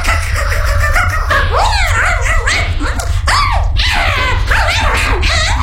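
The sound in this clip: A dog named Chimotoc whimpers, yips and whines in many rising and falling cries while gnawing at the Duraton casing of a rocket. A loud, steady low hum runs underneath throughout.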